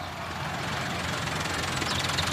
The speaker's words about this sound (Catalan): de fons, l'espetec dels tractors recorda que les classes pràctiques ja han començat.